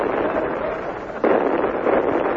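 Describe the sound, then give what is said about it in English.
Artillery shelling near a holiday bungalow on an island rings out as a dense, continuous rumbling roar, jumping suddenly louder midway and staying heavy to the end. “There's some sort of artillery shelling my holiday bungalow.”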